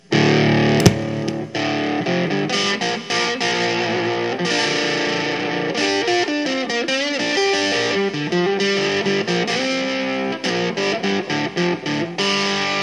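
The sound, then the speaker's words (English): Distorted electric guitar through a fuzz pedal built on germanium AC-127 transistors, with its boost and bass cut switched off for a more traditional tone. It plays a busy, continuous run of gritty chords and notes at a steady, loud level. “So let's turn the bass cut off and the boost off to get a more traditional sound.”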